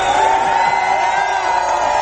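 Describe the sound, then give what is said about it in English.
A crowd cheers for the Sunshine Patriots with a continuous, dense roar of voices and whoops that holds steady and loud with no break. “cheers for Sunshine Patriots here.”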